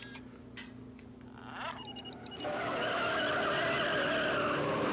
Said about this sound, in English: Tires speeding up. With the remote control.